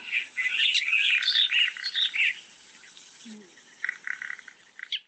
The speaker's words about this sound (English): Oh, there we go. That is the sound of the cardinal woodpecker.